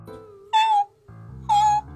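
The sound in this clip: Two meows from a black cat, short high-pitched calls separated by a brief pause, heard over a quiet low background tone.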